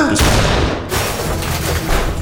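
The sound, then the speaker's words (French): Video game gunshots: two loud, harsh blasts in quick succession, the second leaving a thick, noisy rumble that fades slowly. “Mais sur qui t'as tiré? Eh merde, c'était Pinocchio.”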